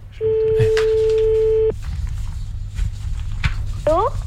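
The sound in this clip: A telephone ringback tone sounds during an outgoing call: one steady, mid-pitched tone lasting about a second and a half, followed by quieter line noise.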